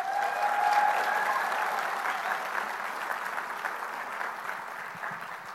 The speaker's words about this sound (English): Friends, let's take time and give Amy a warm South African welcome.